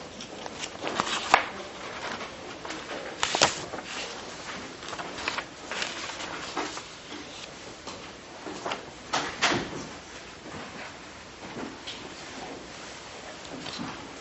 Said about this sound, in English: if you'll just wait a few minutes for the to clear out and the door to close